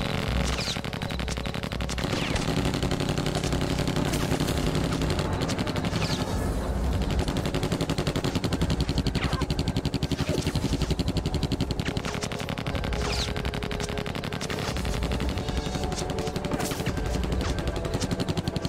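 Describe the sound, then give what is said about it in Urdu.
Gunfire from fighters shooting, a dense, continuous barrage of rapid shots that stays loud and steady throughout with no clear pauses between bursts. “ساتھیوں، انہیں گولی مارو۔”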